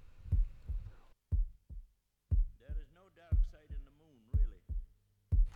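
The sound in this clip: A heartbeat sound effect opens a rock album, with paired low, muffled thumps repeating in a steady lub-dub rhythm and a voice talking over the middle stretch.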